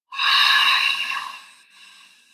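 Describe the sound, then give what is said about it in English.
A deep exhale during a breathing exercise: one long, breathy outward breath that starts strong and tapers off over about a second and a half, leaving a faint trailing breath. “Inhale on four. deep exhale.”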